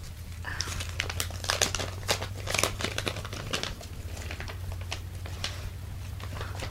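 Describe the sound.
A paper envelope is handled and opened with many sharp, crinkling rustles and crackles in irregular bursts over a low, steady hum.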